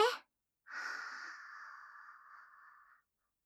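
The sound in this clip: A single long breath during a guided breathing exercise: a soft, airy hiss that swells quickly, then slowly fades over about two seconds before silence.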